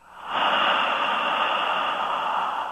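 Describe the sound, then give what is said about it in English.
A long exhale pushed out through the mouth with an open H sound: a single breathy hiss that rises quickly after a short pause and then holds steady, fading only slightly to the end. “And blow the air out the mouth. Inhaling through the nose. Exhale the H sound out the mouth.”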